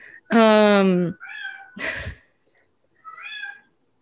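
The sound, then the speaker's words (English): A tortoiseshell cat, a breed type known for being noisy, lets out one loud, drawn-out, tonal meow, followed by a few shorter, quieter vocal sounds. “That's a tortie, right? A tortie? Tortie's a tortoise shell. They're notoriously noisy.”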